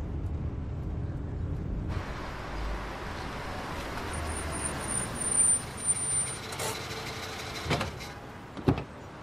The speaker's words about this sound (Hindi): अच्छा होल्ड करें, मैं ड्राइव कर रहा हूं।